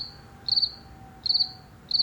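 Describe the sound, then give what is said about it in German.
Crickets chirping: three short, high, buzzing trills, evenly spaced and separated by near silence, each made of several rapid pulses over a faint steady hiss. “Die Grillen zirpen und dann wird man ganz ruhig und dann denkt sich, Mensch, ist das schön.”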